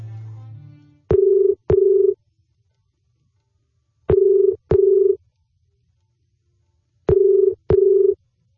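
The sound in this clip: Telephone ringback tone for a phone-in call: three evenly spaced double rings, each a pair of short, steady low-pitched buzzes, with silence between the pairs and no talk over them.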